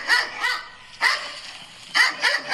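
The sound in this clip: Sharp dog barks as a sound effect: six yelping barks in irregular bursts, a quick pair, a lone bark, then a rapid run of three, loud and bright with no talk.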